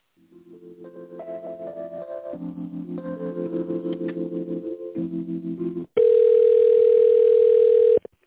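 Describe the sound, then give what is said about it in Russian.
Telephone line tones while a call is transferred to a colleague at a company: a stepped electronic melody of held tones for about six seconds, then a loud, steady, continuous buzzing tone for two seconds before it cuts off. “Давайте вас с ней соединю, Алена Юрьевна. Соединяем? Да, да, конечно.”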